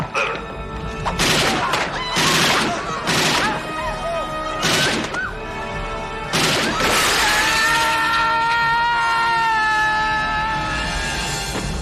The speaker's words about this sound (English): Nice shooting, son.